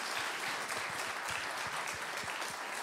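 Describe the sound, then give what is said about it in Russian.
Audience applause at a bilingual harvest thanksgiving service, welcoming the young people: steady, dense clapping from many hands that holds at an even level throughout, fairly soft. “Давайте поаплодируем, поприветствуем их. Geben wir ihnen einen Applaus.”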